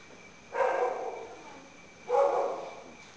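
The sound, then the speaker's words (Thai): A dog barks twice in a forest setting. Both barks are faint and low, rather muffled, and come about a second and a half apart with quiet between them. “ก็ยังมีเสียงดังเสียงหมาเห่าเสียงหมากัดกันตั้งแต่เช้าเลยอันนั้นธรรมดา”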